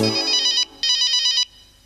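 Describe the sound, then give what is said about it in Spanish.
A telephone's electronic ringtone sounds in two bright, trilling bursts of high warbling tones separated by a short gap, then quiet. No voices are heard. “¿Qué es? El teléfono sonó.”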